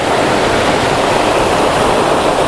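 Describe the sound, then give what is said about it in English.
A waterfall throwing up spray makes a loud, continuous roar of rushing water, an unbroken wash of noise with no voices over it. “waterfalls are great, but you can't see anything because my glasses just get covered up with the spray”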